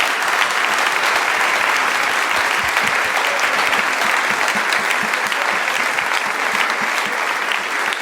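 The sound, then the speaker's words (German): Big applause from an on-stage show audience welcoming a guest, a dense, loud, even roar of many hands clapping that holds steady for the whole stretch without pause. “Und wir begrüßen mit einem Riesenapplaus bei uns auf der Bühne Diana!”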